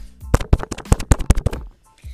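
Typing noises used as a sound effect: a quick, regular run of sharp clicks, fairly loud, in an even rhythm before falling quiet.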